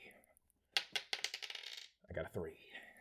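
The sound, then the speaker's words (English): Five dice clatter as they are rolled in a tabletop game: a burst of sharp, rattling clicks tumbles and settles over about a second, followed by quieter sounds. “So you're still rolling a lot, right? You're rolling five dice.”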